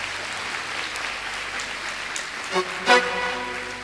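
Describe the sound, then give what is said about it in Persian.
An audience applauds at a self-confidence seminar, giving steady, even clapping at a moderate level that continues throughout. “دوست دارید یه دست برای هلال بزنید”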